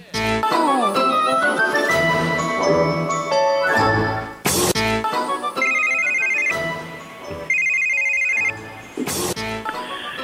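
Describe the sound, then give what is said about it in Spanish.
A house telephone ringing late at night with a melodic electronic ringtone, its bright tone phrases repeating loudly and steadily without any talk over them. “¿quién estará llamando a esta hora a una casa tan decente?”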